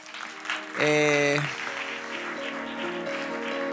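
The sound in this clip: Audience applause welcoming a professor onto a stage, steady clapping under a short, loud burst of bright musical tones near the start, followed by sustained music that continues beneath the clapping.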